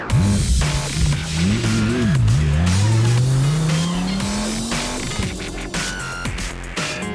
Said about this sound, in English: a mad dash down the carport stairs and we've hit the Honda Civic Type R